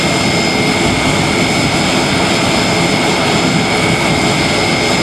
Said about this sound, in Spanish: Así sonaba ese instante en el que el avión del Ejército del Aire aterrizaba en Madrid con uno de esos papamóviles.